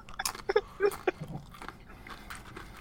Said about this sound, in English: Now, to the untrained ear, you might think that I'm just eating regular chips, but no. I'm putting my Chipotle bowl onto chips.